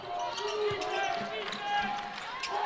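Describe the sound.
A basketball bounces on a hardwood court during a BYU versus Cincinnati women's college game, a few dull thumps mixed with sharp sneaker squeaks over a constant crowd murmur.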